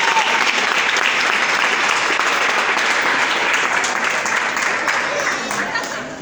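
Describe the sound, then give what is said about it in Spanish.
Steady applause from a crowd cheering a youth group: dense, even clapping that stays loud and unbroken, then eases off slightly near the end. “Y un aplauso a los Pumitas de La Cariñosa, loco, que es increíble lo que están haciendo.”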